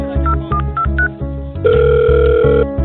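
A telephone call is placed: a quick run of short keypad dialing beeps at varying pitches, followed by a single steady tone lasting about a second, all over a loud rhythmic music bed.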